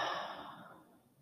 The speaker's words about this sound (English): Inhale through the nose and exhale through the mouth.